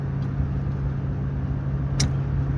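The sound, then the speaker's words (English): A car drives along the road to Dyersville, Iowa, with a steady low rumble and a constant droning hum, and no voices. “But I'm driving right now to Dyersville, Iowa.”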